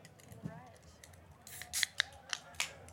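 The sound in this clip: Scissors snip open a Carabao Mixed Berry drink package in a few quick, crisp cuts. The cuts are faint and come after a quiet moment of low background rustle.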